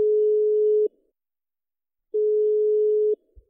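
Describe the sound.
Telephone ringing tone heard while calling someone: two long, steady, low-pitched beeps of almost a second each, separated by a silent pause of just over a second, followed by a faint click.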